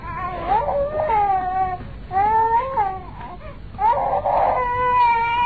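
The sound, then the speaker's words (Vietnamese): A small child cries loudly in three wailing bursts while being picked up and held by a woman. The high, harmonic sobs waver up and down in pitch, with short gaps between the bursts. “Đứa nhỏ càng khóc lớn mà kêu má nhặt hơn nữa.”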